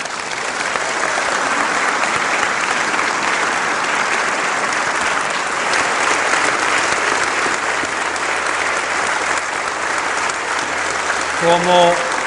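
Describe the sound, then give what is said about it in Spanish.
Loud, sustained audience applause closes a talk on marriage at a religious conference. Dense clapping from many hands runs evenly for over twelve seconds, and a voice begins just as it ends. “Como yo siempre digo, el aplauso es para ustedes.”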